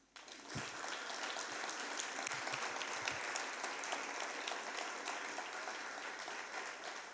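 A church audience applauds during a service: dense, steady clapping from many hands starts abruptly and continues evenly for about seven seconds, fairly faint throughout.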